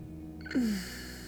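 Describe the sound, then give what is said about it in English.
A slow breath drawn in during a meditation exercise: a soft, airy rush that swells in and then holds at a low level to the end. “Just listen to your breath as you breathe in and out. Breathe in.”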